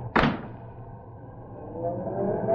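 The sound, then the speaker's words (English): A taxi pulls up on a night street after being hailed: a sudden sharp whoosh, then a low engine rumble that holds steady and grows louder toward the end. “Taxi! Hey, taxi!”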